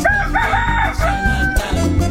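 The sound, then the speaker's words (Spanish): A rooster crows in one long, loud, wavering call that rises and then falls in pitch, heard over a dense, steady low background. “¡Vaya! Hoy canta ese gallo, señoras y señores.”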